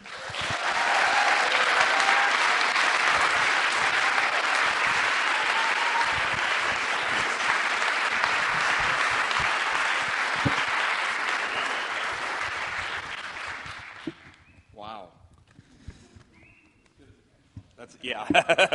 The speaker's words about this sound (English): So I'd like you to give a really warm Yorkshire welcome to Robbie Dawkins.